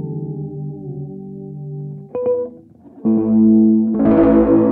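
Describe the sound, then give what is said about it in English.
Warm, slightly gritty preamp-style distortion effect, heard fully wet, colouring a few sustained harmonic notes that shift around the two- and three-second marks and turn brighter and grainier toward the end. “that preampy thing where it just sounds like it's just warm, a little gritty.”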